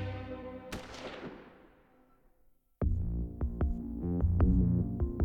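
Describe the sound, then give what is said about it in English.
A single pistol shot, fired from a gun drawn from a coat pocket, cracks sharply and rings out in a long fading tail. After a short near-silence, music starts. “He drew his gun from his coat pocket, and just as Martha turned, he fired.”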